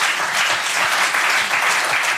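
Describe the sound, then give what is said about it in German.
Applause from an audience at a music show, with many hands clapping in a dense, loud, unbroken roar that holds steady from start to end, with no voices above it. “Ja, und wir nehmen auch nochmal einen Applaus, oder?”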